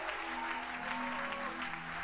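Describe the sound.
Applause fills a worship service where the audience is asked to acclaim God with alleluias. Dense, steady clapping runs the whole time at an even, loud level, with no clear breaks or voices.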